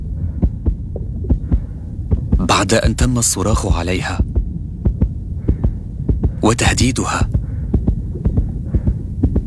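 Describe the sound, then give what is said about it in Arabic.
A nurse's heartbeat throbs in a steady pulse beneath a low hum, with a voice speaking over it in two bursts. “هذا صوت معدل ضربات قلب ممرضة”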